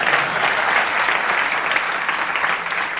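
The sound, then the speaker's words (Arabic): Applause for a guest speaker on stage: a dense, even burst of many hands clapping, steady and fairly loud for the whole short stretch, with no talk over it. “صفقة حق دكتور طارق.”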